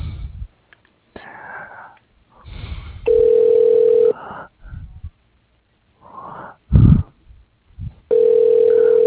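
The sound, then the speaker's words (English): A telephone ringback tone sounds while a call is transferred to voicemail: two steady, mid-pitched buzzes of about a second each, separated by a stretch of muffled, noisy line sounds. “Let me transfer you to his voicemail, just a moment.”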